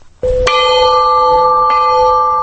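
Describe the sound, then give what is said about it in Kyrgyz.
A 50 kg Russian-made peace bell is struck at a memorial ceremony. It gives a loud, bright metallic clang, and a rich sustained ring with layered overtones follows and holds steady to the end. “Маркумдарды эскерүү зыяпаты тынчтык коңгуроосун кагуудан башталды.”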